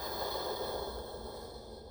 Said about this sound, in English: So let's take a deep breath in. Breathe it in. Breathe it out.